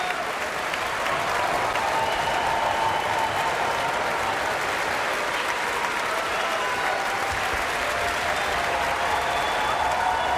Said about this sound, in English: Both the music and the musicians are getting a wholehearted ovation from the audience.